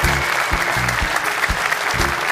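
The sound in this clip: Brief burst of applause from a crowd: dense, steady clapping at an even, moderate loudness, with no voices standing out.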